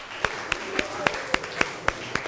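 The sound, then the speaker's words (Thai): Classroom clapping for a student's answer: about eight sharp claps in an even rhythm, fairly faint over a soft background. “พญานาคเอาปรบมือให้เพื่อนหน่อยครับ”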